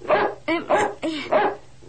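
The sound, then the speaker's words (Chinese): A dog barks sharply several times in a quick, slightly uneven rhythm, each bark loud and clipped, with no other sound around it. “唔好吠啦，我系你个新主人嚟噶嘛。仲吠？”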